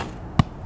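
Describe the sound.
A single dull thud of an arrow striking an archery target in a park, brief and sharp, standing alone against quiet background hiss.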